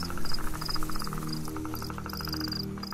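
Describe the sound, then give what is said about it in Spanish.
Crickets chirping in rapid, steady pulsing trills, a dense and continuous high-pitched chorus with no voices. “los grillos lisonjeros”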